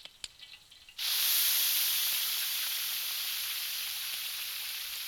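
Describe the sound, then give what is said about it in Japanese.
Meat sizzles as it hits an oiled pan for grilling: after a second of faint clicks, a loud, bright hiss bursts in and holds steady, fading only slightly to the end. “こう入れて、では焼いていきましょう。”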